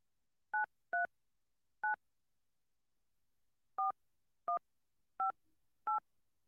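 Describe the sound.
Touch-tone telephone dialing: seven short, clean keypad beeps, three in a quick group, a pause, then four more evenly spaced. The line is otherwise quiet, with no talk.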